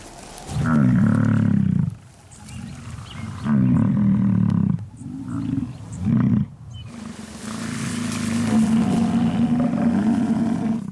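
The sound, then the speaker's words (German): Bison bulls bellow during the rut on the Yellowstone prairie: a few loud, deep, roaring calls separated by short pauses, then a longer, lower rumbling bellow that carries on to the end. “findet im Yellowstone in der Prärie die Bisonbrunft statt. Jeder Bulle, der dabei mitmischen will, bringt sich jetzt in Stellung, um sich am Platz zu behaupten.”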